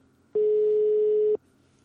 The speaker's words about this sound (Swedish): Så nu tänker jag ringa till honom.